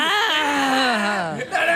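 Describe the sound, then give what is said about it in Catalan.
A newborn baby's wailing cry, strong and harmonic, stretching out in one sustained breath with a slowly falling pitch before a brief break and a fresh burst at the end. “Aquest nen és... Aquest plor és nou, no?”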